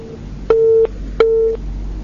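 A phone call into a call-in line cuts off with a disconnect tone: two identical steady mid-pitched beeps, each about a third of a second long with a short gap between them, over faint background hiss.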